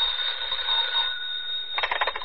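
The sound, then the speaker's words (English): Telephone ringing with a steady high-pitched electronic trill that holds for about a second, fades slightly, then returns in a rapid pulsing burst; faint and alone, no talk. “A few minutes after the grandfather clock struck 11, the telephone rang.”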